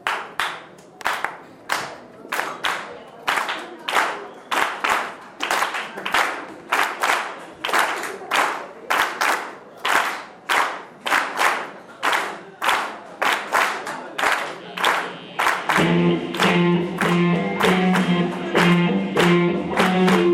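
An audience claps along in a steady rhythm at a live music concert, with many even, sharp claps repeating, until instrumental music joins in near the end.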